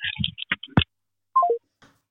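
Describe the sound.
Keypad tones of a telephone number being dialled: three quick beeps, each a step lower in pitch, after a short burst of speech.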